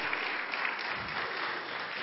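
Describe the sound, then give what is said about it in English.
Audience applause for children after their stage performance: an even wash of many hands clapping, held steady and fairly soft throughout. “All right, let's go ahead and give them another big round of applause for all their work into that.”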